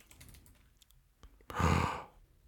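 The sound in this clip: Faint typing on a computer keyboard while searching, heard as a few soft, scattered keystroke clicks, followed by a louder, breathy rush of noise lasting about half a second.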